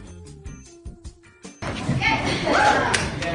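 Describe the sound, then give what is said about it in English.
Dull thuds of a head banging against a wall, a few separate knocks, then a sustained burst of loud noise. “That was the sound of my head against the wall.”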